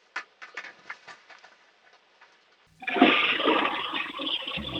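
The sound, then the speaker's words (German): A household toilet flushes: faint clicks and small handling noises first, then a sudden loud rush of water that keeps gushing steadily to the end. “Na, dann lauf mal schnell los und zeig mir deine Klospülung.”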